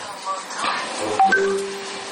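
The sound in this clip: Telephone dialing tones while calling back a dropped call: a few short, pure electronic beeps at differing pitches sound over faint background speech.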